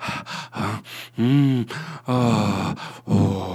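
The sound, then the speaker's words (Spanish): Heavy, moaning panting from a caller on the other end of a telephone line, a loud rhythmic run of voiced breaths and groans of uneven length with brief gaps between them, heard alone without words. “Descolgué el teléfono y escuché un jadeo venéreo al otro lado de la línea.”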